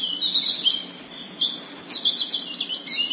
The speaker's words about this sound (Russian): И правда, как раз в эту самую минуту запела Зарянка свою песенку, короткую и простую. Малиновый свист переходил в звенящую трель,